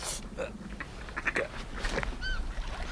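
Gulls call by a jetty: a few short, honking cries, some with a ringing tone, rising faintly over steady background noise.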